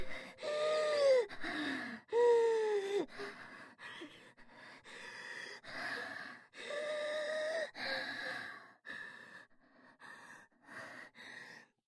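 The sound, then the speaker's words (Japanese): Deep, gasping breaths from a person in a long series of shaky, voiced inhales and exhales. The first few are louder with a whimpering pitch, then quieter breaths follow. “落ち着いて、深呼吸。”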